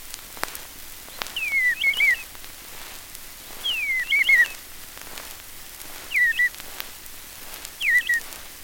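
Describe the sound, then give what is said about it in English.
Bluebird song: four short warbled phrases of clear, high whistled notes, each slurring slightly downward, separated by pauses of a second or more over faint background hiss. “Bluebird.”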